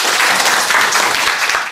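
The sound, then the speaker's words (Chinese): Students in a class give a round of encouraging applause, a brief, dense burst of many hands clapping together that fades out at the end. “好，大家来给他掌声鼓励一下。”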